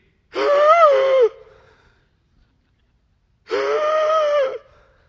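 Two drawn-out, voiced human gasps, each lasting about a second, separated by a few seconds of silence.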